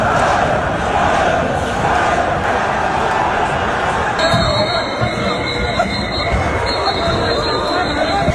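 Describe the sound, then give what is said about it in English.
A chaotic crowd fills a downtown street during a police dispersal, with dense shouting and babble that stays loud and continuous throughout. Partway through, a high, steady electronic tone joins in and cuts out once briefly before returning. “That's not the sound of celebrating, that's the sound of chaos. In the middle of the street, in the middle of downtown.”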